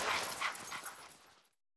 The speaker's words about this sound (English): Oh, look at the puppies. They're eating a bone.